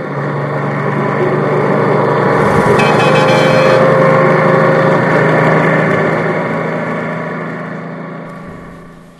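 Steady low drone of a bus engine running during a night journey: a continuous rumble with a constant hum that swells slightly toward the middle and then eases off at the end.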